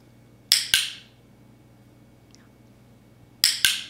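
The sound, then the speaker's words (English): A dog training clicker snaps out four crisp, sharp clicks in two quick pairs, one pair near the start and one near the end, over a quiet, near-silent background. “That was the sound of a clicker.”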